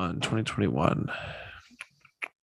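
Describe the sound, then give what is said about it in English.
Typing words into a Google search on a computer keyboard: a few faint, sharp clicks that come alone after a stretch of speech. “Go ahead. You type your little words into your Google machine.”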